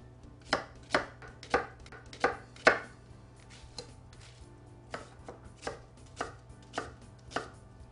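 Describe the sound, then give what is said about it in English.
A knife chopping onion on a board, with crisp, evenly spaced strokes in two runs separated by a short pause, quiet and with no talk. “Next, I'm going to cut some onion up.”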